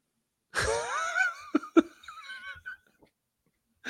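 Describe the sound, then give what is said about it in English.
Loud, wheezy mouth breathing: a long raspy, voiced exhale, then a few shorter gasping breaths before it falls quiet. “I wanted to see how long I could mouth breathe before you would interrupt.”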